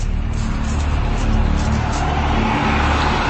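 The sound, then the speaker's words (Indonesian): A bus bound for Bandung passes by with a loud, steady roar of engine and road noise that swells slightly midway and then stays broad and constant. “Begitu bis itu melintas di depanku”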